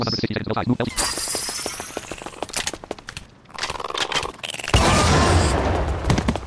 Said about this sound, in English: I'll have to see how this Gatling gun works.